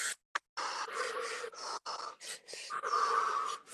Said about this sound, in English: Thirty more seconds of this breath. Maybe you speed it up, accelerate it a slight bit faster.